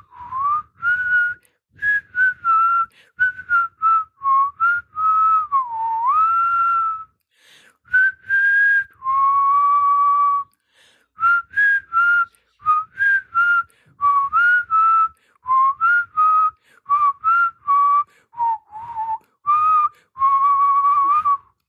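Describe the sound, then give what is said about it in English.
A person whistles a tune in clear, pure notes. Short melodic phrases rise and fall in pitch, separated by brief pauses, and there is no talk over it. “as he breezed into Nigel's office whistling”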